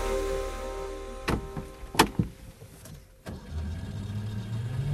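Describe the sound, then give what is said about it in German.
A car pulling away in the town of Schaffhausen: a few sharp clunks and knocks over a low running engine, then engine noise building steadily toward the end. “Wir fahren in der Stadt Schaffhausen am Fuß vom Schaffhauser Wahrzeichen Munot ab.”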